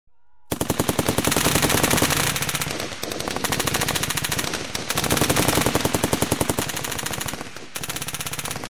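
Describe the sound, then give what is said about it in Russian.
Distant machine gun fire over a savanna: long, rapid bursts of crackling shots run almost continuously, broken only by a few brief gaps, and stay fairly loud and steady throughout. “Стрекотня далеких выстрелов полетела над саванной.”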